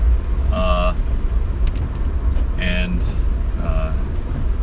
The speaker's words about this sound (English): Of course, I'm driving while I do this. That's one of the reasons I drive